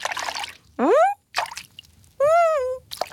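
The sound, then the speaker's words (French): Cartoon-style sliding and watery plop effects for a toy animal slipping into a bathtub of water: two whistling glides, the first climbing in pitch, alternating with short, splashy bursts. “Toudou trempe le bout de sa patte pour goûter l'eau. Il ferme les yeux et zzz, il glisse dans la baignoire.”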